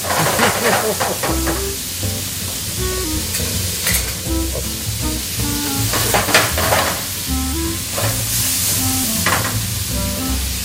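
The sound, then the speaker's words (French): Lardons (bacon pieces) fry in a pan for a truffade, browning with a steady loud sizzle and crackle, while stirring sounds cut in now and then throughout. “On va laisser colorer un petit peu les lardons.”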